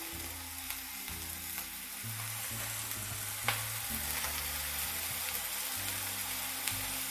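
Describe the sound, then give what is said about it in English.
Food sears in a hot pan with a steady, dense sizzle, a constant crackling hiss that holds even throughout, broken by a couple of sharper pops. “Just kind of let them sear for about a minute, maybe two.”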